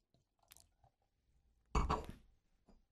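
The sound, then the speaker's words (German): A bottle being torn open, with a sudden loud burst of hissing as the drink fizzes out, preceded by a few faint small clicks and followed by near silence. “Gut, ich reiß die Flasche einfach mal auf, oder?”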